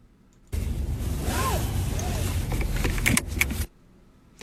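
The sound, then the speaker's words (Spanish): A car seatbelt is pulled across and buckled: a steady rustling whoosh lasting about three seconds, with a few sharp clicks near the end before it stops. “El cinturón del carro”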